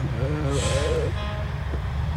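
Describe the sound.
Heavy truck engines rumble steadily as the Haywoods truck company's trucks join the parade on Towser Street for the 2026 Kempsey Truck Show, a continuous low drone under someone talking.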